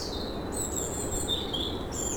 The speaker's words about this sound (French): le chant des oiseaux